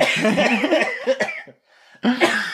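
Wet coughing as someone coughs up phlegm: several rough, throaty bursts, then a short pause and one final cough.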